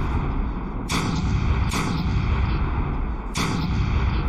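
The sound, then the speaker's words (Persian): Cannon fire from a castle at night: three heavy booms land at uneven intervals over a dense, continuous roar of rumbling noise. “این صدا داره از قلعه میاد. نکنه وابار شروع کردی با آتیش بازی؟ احمق، این صدای توپ جنگیه.”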